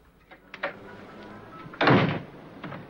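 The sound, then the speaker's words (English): A door closing: one muffled, fairly loud thump in the middle, preceded by a few faint knocks and followed by quiet. “She steps inside and closes the door.”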